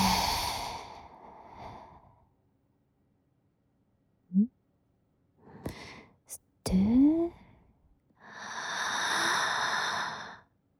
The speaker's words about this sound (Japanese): 深呼吸しよっか。はい、吸って、吐いて。